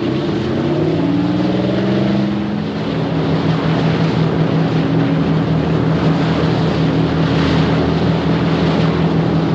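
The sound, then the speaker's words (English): Two sleek, square-bowed boats sitting low in the water speed side by side through choppy water toward the coast, their engines a loud, continuous droning roar that holds steady throughout. “Two boats head off through choppy water. Sitting low in the water, the two sleek square-bowed craft speed side by side towards the coast.”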